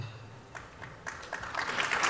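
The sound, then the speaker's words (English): Applause at a government procurement discussion starts with scattered claps and swells into a denser, louder patter over the final second. “Whenever somebody in government says they don't like LPTA, you get the applause”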